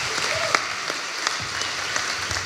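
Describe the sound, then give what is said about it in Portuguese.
Applause from an audience at a live comedy roast on stage: steady, dense clapping with scattered sharper claps, sustained at moderate level throughout with no talking. “Vou pedir também uma salva de palmas para Rui Reininho”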